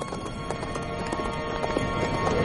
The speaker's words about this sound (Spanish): Luego sube al animal que lleva James atado a una cuerda y emprenden el camino.